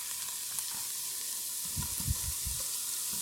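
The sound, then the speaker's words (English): Half and half cream simmering in a pan with garlic, leek and cabbage gives a faint, steady sizzling hiss, broken by a few low bubbling pops in the second half. “I'm going to take the cream, the half and half that I've got, or your milk and cream mixture, and then we're going to put that in and just bring it to a simmer.”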